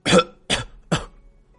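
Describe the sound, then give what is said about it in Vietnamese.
An old woman coughing violently in anger: three harsh, loud coughs at an even rhythm, each a sharp burst that fades quickly into a short silence before the next. “nộ khí công tâm ho sù sụ”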